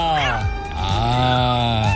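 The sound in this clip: A cat meows in a few drawn-out, wavering cries, loud and tonal, with the pitch bending within each call.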